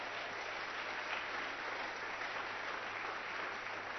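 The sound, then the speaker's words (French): A church audience applauds during a worship service with a steady, dense patter of clapping that holds a constant level throughout. The sound is slightly muffled and dull, and no distinct cheering voices stand out. “Au nom de Jésus, nous acclamons très fort le Seigneur.”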